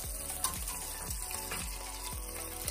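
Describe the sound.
Pork pieces browning in olive oil in a pot give a dense, continuous sizzle, with a regular series of low knocks running underneath.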